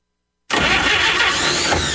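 An old car engine is started: silence, then an abrupt loud roar that catches at once and keeps running steadily and loudly to the end.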